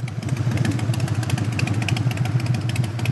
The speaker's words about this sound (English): That's the sound of the new live wire whizzing by Harley-Davidson's first electric motorcycle.